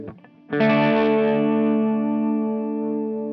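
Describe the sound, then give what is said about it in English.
An electric guitar strikes one big open D chord through a chorus effect pedal. The rich, bright chord rings out and decays slowly with a gentle shimmering wobble. “So if we have a look at the chorus first, I'll play a big open D chord to start with. So that's it. So if I turn the pedal on,”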